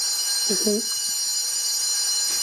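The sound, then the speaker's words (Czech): An electric school bell rings at the end of a lesson, a continuous shrill, high ringing that runs throughout, with a brief burst of voices near the start. “Je to zvonění po hodině, jako školní hodině, nebo jakoby po vyučování. Jasně, zvonění po školní hodině”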